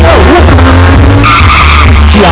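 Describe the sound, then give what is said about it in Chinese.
Tyres skidding with a roaring engine from a GR65 sports car: a loud, continuous squeal over a heavy low rumble throughout, with no voices heard. “GR65 GR65 GR65 音速跑车引擎充满爆发力”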